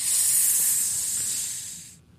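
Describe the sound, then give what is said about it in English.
A four-foot boa constrictor gives a loud, steady, breathy hiss that holds for about two seconds and then cuts off abruptly. “No hose. It's a snake. And not just a little a great big a 4 foot long boa constrictor.”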